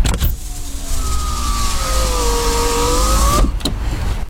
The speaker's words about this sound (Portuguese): Abrir. Abrir o vidro do carro.